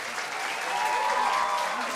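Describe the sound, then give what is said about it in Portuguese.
Audience applause for a performing group: a steady wash of clapping that rises slightly midway and holds for about two seconds. “Grupo Turquesa, minha gente. Uma salva de palmas.”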